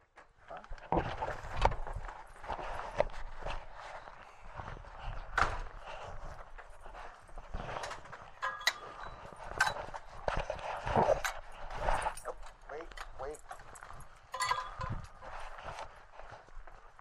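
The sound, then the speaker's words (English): Footsteps on an early morning walk on a gray day. Soft, steady steps go on throughout, with an uneven rhythm of light scuffs and crunches. “We're going off for a little walk this morning.”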